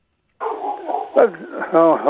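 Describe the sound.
A dog yips and whines in a run of high, sliding cries, with louder bursts near the middle and again toward the end.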